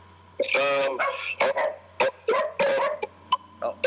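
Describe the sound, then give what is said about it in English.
A dog barks in many short, sharp, loud bursts, spaced irregularly, with some barks closely paired and some isolated. “I hear him, man. That's my dog.”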